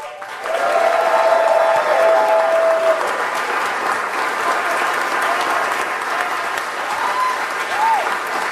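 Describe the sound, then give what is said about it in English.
Standing ovation applause from the crowd at a WGN Radio Walk of Fame induction: a dense, steady wash of clapping that stays loud and even for the whole stretch. “A standing ovation. Standing ovation. Wow.”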